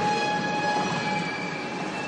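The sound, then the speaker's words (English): A commuter subway train arriving at a city station, a continuous rolling rumble topped by sustained high-pitched whines and squeals, loud and steady, easing slightly toward the end. “It might help me commute to and from work faster. Here is the train right now.”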